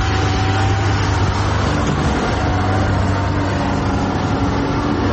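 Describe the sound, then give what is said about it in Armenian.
A truck driving out of a construction site: a loud, steady engine rumble and road noise hold evenly from start to finish with no clear break. “Մեր նկարահանման պահին, սակայն, շինհրապարակներից մեկից դուրս եկող բեռնատարը փոշին իր հետևից տարածեց ամբողջ ճանապարով։”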